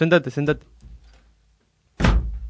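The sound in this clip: A door opens with a single solid thunk near the end, after a moment of speech and a short quiet pause.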